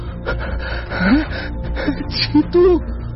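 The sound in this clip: Heavy, ragged gasping breaths from a man, like someone struggling for air after falling into water, several sharp voiced gasps with whimpering edges rising and falling unevenly.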